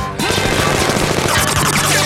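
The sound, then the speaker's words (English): Machine gun firing a hail of bullets: after a brief lull, a dense, continuous burst of rapid, loud shots runs for about two seconds without a break. “Leighton flies backwards in a hail of bullets from Jean's machine gun.”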